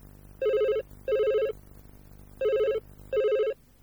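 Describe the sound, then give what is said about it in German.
A telephone rings for an incoming call in two double-ring bursts, four short, bright electronic tones in pairs with a pause between the pairs, over a faint low background hum. “Frau Meier bekommt einen Anruf.”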